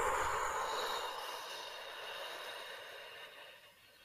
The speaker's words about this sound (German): Und wieder lange ausatmen.